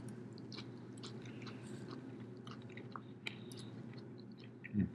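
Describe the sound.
Chewing and biting on tacos at a meal: faint, continuous soft crunchy mouth sounds over several seconds, with a slightly louder bite near the end.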